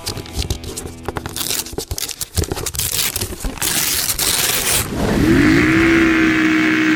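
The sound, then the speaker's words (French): A quad bike engine revs for a trail ride. Rough, gritty crunching and rumbling bursts churn unevenly at first, then the engine settles into a louder, steady whine that climbs slightly and holds to the end. “c'est une randonnée en quad”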